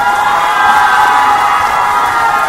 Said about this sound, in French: On l'applaudit et on l'encourage à nouveau.